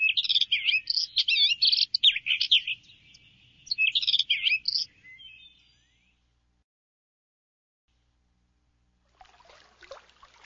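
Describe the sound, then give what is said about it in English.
Birds chirping in a quick, busy run of high tweets that lasts about five seconds and then stops, leaving near silence before a brief burst of rustling noise near the end. “Birds chirp.”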